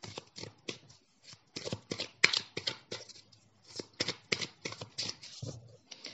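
Tarot cards are shuffled for a horoscope reading: many quiet, crisp riffling bursts in an irregular rhythm, broken by short pauses.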